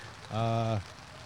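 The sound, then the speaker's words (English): Rain falls at an outdoor baseball game in Columbus, Ohio, as a steady, soft hiss, briefly overlaid midway by a short, sustained voiced tone. “As the rain continues to come down here in Columbus, Ohio,”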